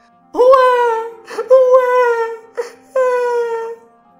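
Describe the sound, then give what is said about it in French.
Baby crying as a sound effect in a Passover story, heard as the cry of a baby in a cradle floating on the Nile. Three drawn-out wailing cries, loud and alone, with short pauses between them. “quand Batia passa près du fleuve, elle entendit la voix d'un enfant qui pleurait.”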